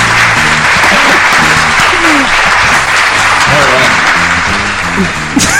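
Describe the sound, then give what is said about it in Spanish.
Audience applause at a radio comedy night, a dense, loud, steady wash of clapping that carries through the whole stretch, with voices mixed in underneath. “Aplauso, por favor.”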